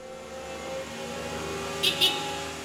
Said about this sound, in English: I drive the Zamboni primarily. I call it a glorified riding lawnmower.